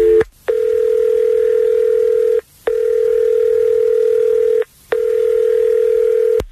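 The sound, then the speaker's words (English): A steady low telephone dial tone hums before a call is placed. A few brief silent gaps break it into long, even stretches, and no voices are heard. “We'll call her now.”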